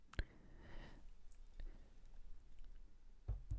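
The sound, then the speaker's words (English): Someone sips alcoholic root beer: soft, faint mouth clicks and a brief fizzy hiss, with a few quiet gulping taps spread across the moment. “I'm drinking a alcoholic root beer. I'm turning up.”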